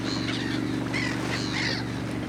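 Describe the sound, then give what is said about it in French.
Seagulls following a fishing boat give a few harsh, nasal calls over a steady low drone that runs throughout. “Ce sont des mouettes.”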